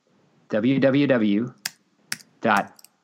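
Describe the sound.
A few sharp, brief clicks of computer keyboard keys being typed, scattered between stretches of a man's speech.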